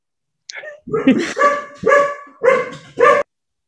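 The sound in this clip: Two dogs bark in the background in a quick run of sharp, loud barks with short gaps between them.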